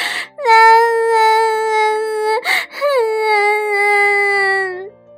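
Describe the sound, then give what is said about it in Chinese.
Crying from a little rabbit in a children's picture-book story: two long, high, wavering wails, each held for about two seconds with a brief catch of breath between them, loud and clear. “小兔子突然哭了起来。”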